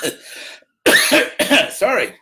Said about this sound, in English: sorry for coughing, it's but it happens.